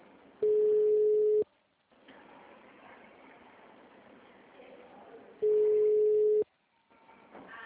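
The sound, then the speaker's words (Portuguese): Ringback tone of an unanswered telephone call: two steady one-second beeps about four seconds apart, with faint murmuring noise between them. “Ninguém atende, Neia. Ninguém atende, eu liguei várias vezes, não atende.”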